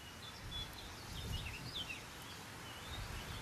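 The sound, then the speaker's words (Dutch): Faint chattering song of a sedge warbler, quick scratchy phrases repeating over a steady low rush of wind, with no voices. “Meerkoet zegt gedag. Rietzanger, hoor je hem?”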